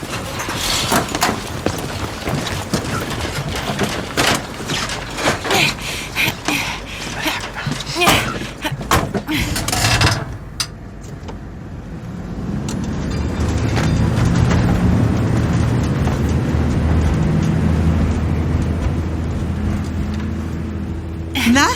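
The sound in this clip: Youth fire brigade crew boarding a fire engine to drive back to the station, with clattering and voices at first, then a steady low engine rumble that swells and holds.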